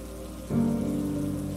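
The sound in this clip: Steady rain on a rainy evening, a continuous hiss of drops on a surface that swells slightly louder early on and then holds even to the end.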